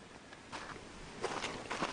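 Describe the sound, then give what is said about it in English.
Footsteps on brand-new concrete behind a house, near a shop: a few soft, scuffing steps at an unhurried walking pace, fairly faint and with no talking. “And we're walking on the brand new concrete.”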